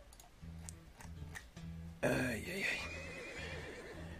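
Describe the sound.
A tired horse lets out a single loud, shrill whinny midway through, heard over a low, steady rhythmic background.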